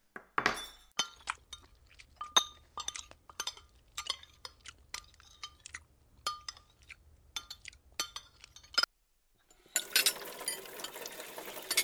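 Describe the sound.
Many light clinks and taps of dishes, glasses and cutlery being cleared away after a meal at home, in an irregular patter that breaks off in a brief silence before a steady noisy rush at the end.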